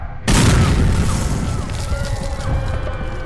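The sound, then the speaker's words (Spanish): Warships approaching through fog open fire on fleeing civilians along the Málaga coast in 1937. A sudden, loud gun boom bursts in and carries into a sustained, rumbling roar of blasts and crackle. “Una mañana vimos unos barcos que se acercaban entre la niebla. De pronto comenzaron a disparar contra nosotros.”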